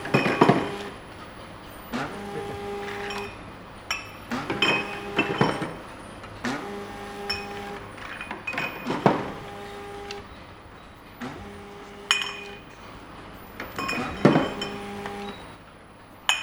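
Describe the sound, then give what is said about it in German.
Glass bottles clink again and again on a labelling, filling and corking line: sharp ringing knocks and tonal clinks recur at irregular intervals over a steady low machine hum. “normalerweise eben leere Flasche wird etikettiert, geht dann in den Füller rein, wird gefüllt, wird verkorkt und kommt am Ende wieder raus.”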